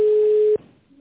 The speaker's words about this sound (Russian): Пожалуйста, подождите. Идет вызов оператора.